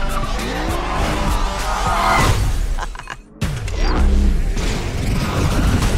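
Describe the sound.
A car's tires skid and squeal as the e-brake is pulled, amid loud engine and mechanical noise; the roar cuts out sharply for a moment, then bursts back in strongly.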